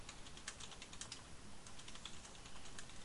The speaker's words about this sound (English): type what I want it to say. And then hit enter.